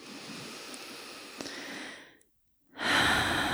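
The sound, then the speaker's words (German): Deep, deliberate breathing out through an open mouth: a long, soft, airy exhale fades into a moment of silence, and then another loud, breathy breath begins. “Dann nimm jetzt ein paar tiefe, bewusste Atemzüge ein und durch den geöffneten Mund aus. Mach das noch zweimal.”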